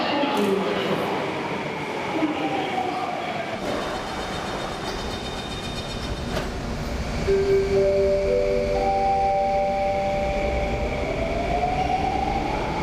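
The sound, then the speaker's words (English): A metro train pulls out from a station platform on the line to Bukit Panjang. A steady loud rumble carries rising and falling motor whines and thin tonal squeals. “But once the last train pulls out, the last train to Bukit Panjang will arrive at”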